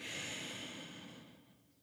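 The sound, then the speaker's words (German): Slow breathing through the nose: a soft, airy hiss that is faint throughout and gradually fades away over about two seconds. “Es kann sein, wie jetzt bei mir, dass das Einatmen quasi schneller geht und das Ausatmen viel länger dauert”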